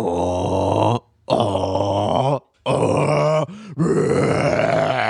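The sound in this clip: A voice imitates loud snoring: four long, rasping, guttural bursts separated by short pauses, the third pause holding a faint low breath.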